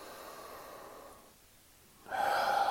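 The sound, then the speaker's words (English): Slow, deep breathing during a calm settling-in exercise: a soft, airy breath, a brief quiet pause, then a louder, fuller breath, faint and alone. “just take a couple of normal, maybe slightly deeper breaths”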